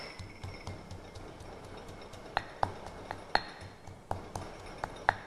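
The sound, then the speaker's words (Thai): Pestle pounding Thai curry paste with coriander root and turmeric in a mortar for sausage: many steady, rhythmic knocks with bright clinking hits, fairly soft against a low background hiss. “เครื่องแกงนะคะเราก็จะต้องตำให้ละเอียดไปเลยนะคะโขกให้ละเอียดนะคะ”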